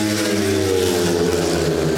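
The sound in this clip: Speedway motorcycles race a heat between Indianerna and Västervik on an oval track, giving a loud, sustained, buzzing engine drone with strong stacked harmonics and no break for two seconds.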